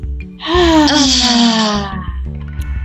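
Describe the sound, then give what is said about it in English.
A deep breath let out as a long, loud, voiced sigh, its pitch sliding slowly downward for about a second and a half before fading, with no talking. “Should we do another deep breath? Yes, definitely. Let it out.”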